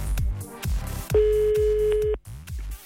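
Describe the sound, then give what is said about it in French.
Telephone tone as a number is dialed live for a radio call-in game: one steady mid-pitched tone lasting about a second over a thumping music bed with regular beats. “Composition live and direct du numéro de téléphone.”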